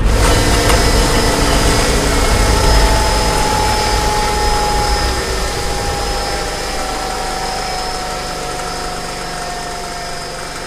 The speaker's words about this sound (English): You need to find a place to land this thing, okay? Find that ship. That's where we are landing.